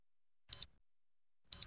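Two short, high-pitched beeps of an hourly radio time signal on Top Albania Radio sound about one second apart against silence.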